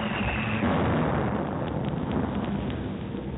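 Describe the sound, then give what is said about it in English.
A German bomb explodes during a WWII night air raid on London: a broad, low, muffled roar that fills the whole clip at steady strength with almost no decay. “That was a bomb.”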